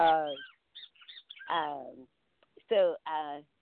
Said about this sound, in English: sorry about the birds in the background.